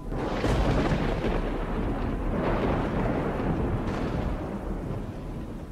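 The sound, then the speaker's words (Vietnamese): Thunder rumbling across the sky in a continuous, deep, heavy roar that swells and rolls without clear breaks, loud and alone throughout. “vừa lúc trên bầu trời tiếng sấm động rung chuyển.”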